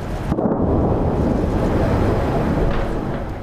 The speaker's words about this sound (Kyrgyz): бир нече чакырым ыраактагы батыш ыптасында бомбанын жарылуусу, артиллериянын үндөрү жаңырат